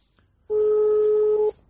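A telephone tone plays while a call is placed to reach someone: a single steady, mid-pitched beep lasting about one second, alone over a faint background hiss.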